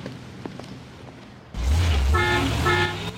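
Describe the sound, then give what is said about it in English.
A truck passing in front of a Jeep Cherokee as it drives into a car park: faint background at first, then a sudden loud low rumble with tonal, horn-like notes over it, easing off slightly at the end. “A truck passes in front of Sarah's Jeep as she drives into a car park and parks.”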